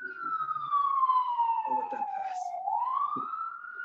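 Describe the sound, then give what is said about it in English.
An emergency vehicle siren passes by: a loud, sustained wail that glides slowly downward, then sweeps back up in pitch. Brief bits of talk sit faintly underneath. “Sorry, I missed the siren. Oh, sorry. Is that loud? They're passing.”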